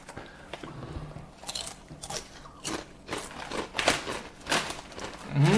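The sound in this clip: Loud, irregular crunching of barbecue-flavoured potato crisps being bitten and chewed, many crisp cracks with a few louder bites, and no talk.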